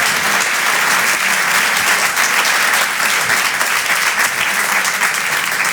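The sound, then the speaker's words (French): An audience at a live stage show applauds, welcoming a performer with dense, even clapping. The clapping stays loud and steady from start to finish, with no talk over it. “Faites du bruit, s'il vous plaît, pour Alexis Tramoni.”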